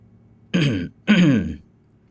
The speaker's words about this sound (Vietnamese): Cổ Lăng ho khan một tiếng, vẻ mặt có phần lúng túng.